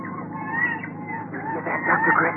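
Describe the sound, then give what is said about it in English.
Seagull cries over open water in a sailboat search: drawn-out, wavering calls that run alongside a man speaking. “Yes. Seagulls.”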